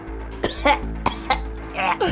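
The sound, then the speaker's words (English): A person acts out a woman coughing up blood during a tabletop role-play game. Several harsh, wet coughs come in a broken rhythm, ending in a longer, strained cough. “She continues coughing up blood.”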